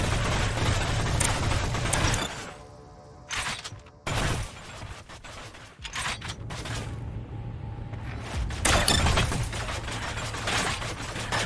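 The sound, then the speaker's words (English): Weapon loading and reloading in the video game Psyber-X: sharp mechanical clacks and short bursts of clatter separated by quieter gaps, each action cutting in abruptly. “Notice the loading and the reloading.”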